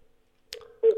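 Touch-tone dialing of a telephone call: a steady low tone with a brief burst and a few faint tone blips, ending in a louder beep.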